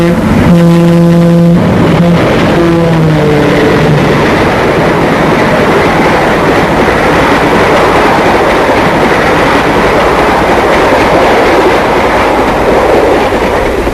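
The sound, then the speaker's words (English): A streamlined passenger train passes on rails: a loud, sustained horn blast opens, then a heavy, steady roar of wheels and cars fills the rest. “And here's the latest thing on rails, modern as tomorrow, the Streamliner. Here she comes.”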